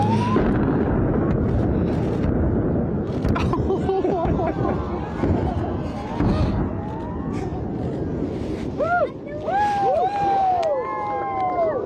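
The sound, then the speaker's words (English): An explosive mine blast at Kalgoorlie's Super Pit gold mine, set off for a gender reveal, makes a loud, sustained low rumble under excited crowd chatter, and high-pitched cheers and whistles rise near the end. “Here is the moment that an explosive blast at Kalgoorlie's Super Pit gold mine sent pink powder flying and tears flowing for a unique gender reveal.”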